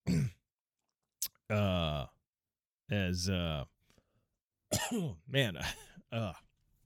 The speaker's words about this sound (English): Try to clear my throat.